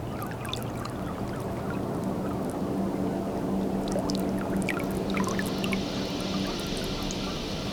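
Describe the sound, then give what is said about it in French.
Sea water washing steadily as the tide slowly rises, a continuous broad rushing wash that stays even in level throughout, with faint higher trickles and splashes on top. “La marée est en train de monter tout doucement.”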